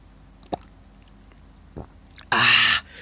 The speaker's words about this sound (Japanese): ペットボトルの蓋を開けまして、ね、あの、お水いただきますよ。